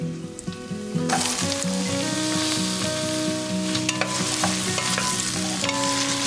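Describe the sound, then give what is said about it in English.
Carrots sizzle loudly as they go into a pan of fragrant frying onions and garlic for plant-based cooking. A steady, hissing sizzle swells abruptly after about a second, with scraping and clattering from stirring throughout. “The onions and the garlic are fragrant, and now I'm going to add the carrots.”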